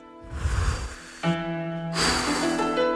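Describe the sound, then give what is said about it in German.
A deep breath drawn in through the nose and mouth, a long rushing, slightly snorting inhale lasting about a second, followed by steady sustained tonal sound that swells louder toward the end. “Da hilft dem Brandenburger nur ganz tief durchatmen. Einatmen.”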